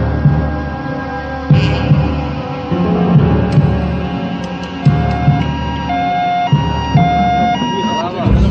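An ambulance siren arrives at an accident scene with an injured, bleeding person. The siren wails loudly and continuously, its tone shifting, over a dense throbbing hum.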